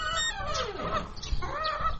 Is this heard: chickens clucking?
yes